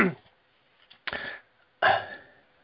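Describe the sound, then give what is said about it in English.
Throat clearing: a few rough, gravelly bursts as a person clears something from the throat, short and separated by brief pauses, with no speech. “Excuse me, I got something in my throat here.”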